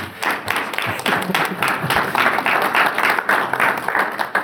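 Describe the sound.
Audience applause welcoming a speaker to a teaching session: dense, sustained clapping from many hands that holds steady for several seconds without talk over it.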